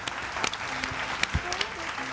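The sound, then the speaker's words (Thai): Children in a drawing class clap for themselves in a short burst of scattered applause, with a few sharper claps standing out and voices talking over it. “เอาปรบมือให้ตัวเองด้วยครับเก่งมาก”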